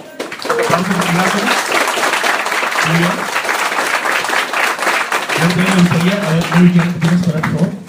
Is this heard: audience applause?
yes

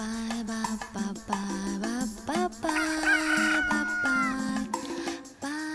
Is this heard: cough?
no

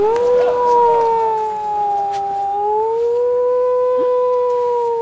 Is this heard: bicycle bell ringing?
no

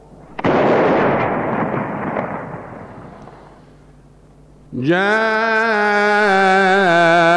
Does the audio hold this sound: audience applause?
no

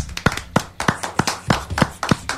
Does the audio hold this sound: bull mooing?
no

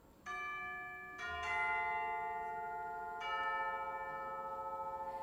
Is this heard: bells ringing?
yes

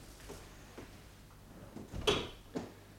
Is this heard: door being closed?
yes

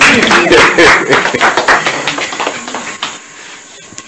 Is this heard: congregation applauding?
yes

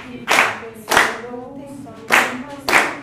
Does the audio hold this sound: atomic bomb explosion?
no

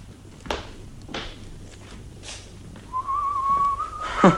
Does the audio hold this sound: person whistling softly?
yes

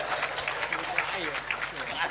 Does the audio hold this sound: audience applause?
yes

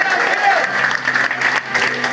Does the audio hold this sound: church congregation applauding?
yes

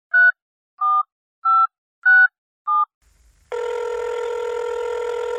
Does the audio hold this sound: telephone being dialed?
yes

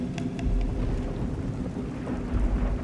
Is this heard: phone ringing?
no

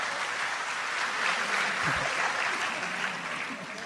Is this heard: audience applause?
yes

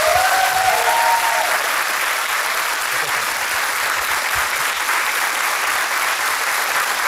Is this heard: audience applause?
yes

